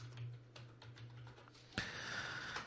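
Soft typing on a computer keyboard: a few light, scattered key clicks over a low hum, then a steadier hiss with a faint tone toward the end.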